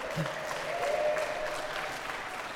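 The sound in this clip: An audience in Texas applauds to welcome a guest, a steady, even wash of clapping hands that holds at a moderate level throughout.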